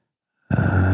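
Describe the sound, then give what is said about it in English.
A group taking a deep breath in together: after a moment of silence, one breathy inhale starts abruptly and holds steady to the end. “deep breath in, expanding it up to about your belly button height.”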